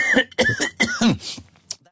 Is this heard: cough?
yes